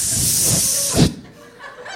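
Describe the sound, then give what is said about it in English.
A person imitates a hiss with the voice: a loud, breathy, sustained hiss of about a second, then a short trailing breath and near quiet. “And then I hiss for 4 counts. I go,”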